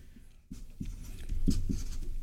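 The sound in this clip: Pen writing on paper: a continuous scratchy rustle of strokes that grows slightly louder as it goes, with no voices over it.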